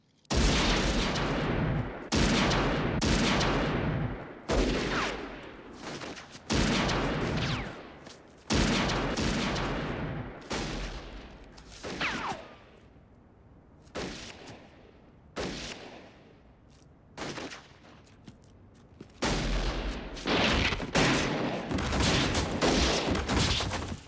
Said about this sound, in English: these gunfights in here are probably a lot more realistic than later gunfights